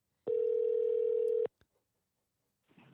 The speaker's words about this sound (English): Oh, I tried calling somebody to see if I can find a new co-host.